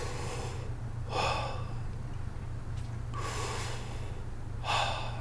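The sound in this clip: Deep breaths taken during a short break, a few loud breathy rushes of air spaced apart over a steady low hum, with no talking.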